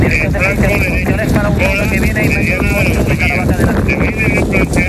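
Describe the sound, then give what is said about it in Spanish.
Strong wind roars across dry terrain at a wildfire site, a loud, constant buffeting rush that fills the whole clip, with a voice partly audible beneath it. “Como puedes escuchar, el fuerte viento y las condiciones del terreno tan seco han complicado mucho las labores de extinción, que continúan hasta ahora.”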